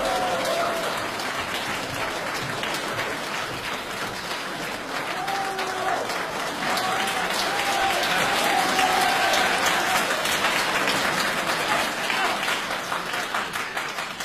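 An audience applauds to welcome crosstalk comedy performers onto the stage. The dense, sustained clapping lasts about fourteen seconds and swells slightly in the middle before easing toward the end.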